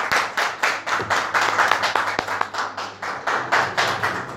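Brisk, rhythmic clapping from a group celebrating a woman's 35th birthday, many crisp, evenly spaced claps in a steady beat that keeps going without talk.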